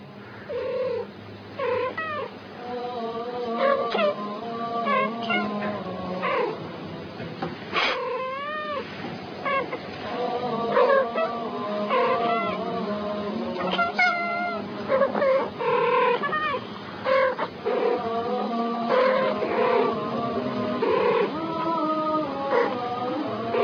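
Two cats meow back and forth, trading many drawn-out, wavering meows and yowling caterwauls in irregular turns, with no talking.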